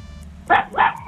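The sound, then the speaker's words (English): A dog gives two loud, short barks in quick succession, each sharp and bright, with no talk over them. “Not the dog. The dog's trying to answer.”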